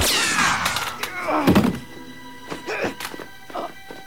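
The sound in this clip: A dull, heavy thunk as a case is dropped onto the ground, one solid thud standing out in the middle, with a few fainter knocks and clatters afterward.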